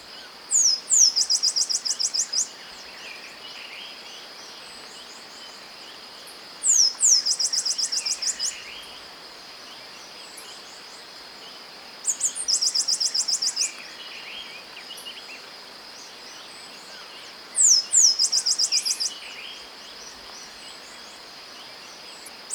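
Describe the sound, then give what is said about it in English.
A Black-capped Sparrow calls in four separate bursts of rapid, very high chirps, spaced several seconds apart over a steady background hum of insects. “Black-capped Sparrow, 1.”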